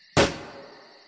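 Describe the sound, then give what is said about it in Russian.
A single gunshot fired by a sentry in a silent night forest: one sharp, loud crack that rings out in a long, slowly fading tail. “В безмолвии ночного леса звук выстрела прозвучал оглушающе.”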